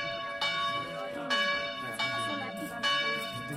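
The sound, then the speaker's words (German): A bell rung by a hard pull on its cord clangs four times in a steady rhythm, each stroke ringing on with a rich, sustained metallic tone that overlaps the next. “Er hat seine Hand schon an dem Seil. Da ertönt die Glocke, weil, ehe die Köchin sich's versieht, fest er an der Kordel zieht.”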